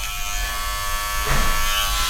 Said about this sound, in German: Dann möchte ich nochmal nachrasieren.